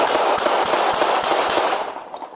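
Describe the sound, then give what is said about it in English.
Gunshots from a replayed video of a police officer shooting a man at close range: many sharp cracks fired in a quick, slightly uneven series over a constant noisy background. “Like 8 shots? Yeah, several shots. I'll play it again.”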